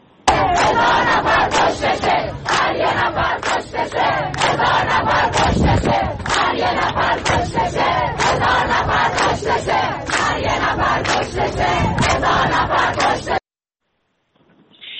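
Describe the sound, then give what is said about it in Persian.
A crowd of protesters at a mourning gathering chants slogans in unison, a loud, rhythmic wall of shouting voices that carries on steadily before cutting off abruptly near the end. “مردمی که برای همدردی آمده بودن باز هم ساکت نبودن و اعتراضهای خودشون رو با شعارهاشون نشون دادن. بخشی از صدای اینها رو محمد من ضبط کردم، اگر قابل پخش هست الان میتونیم بشنویم با هم.”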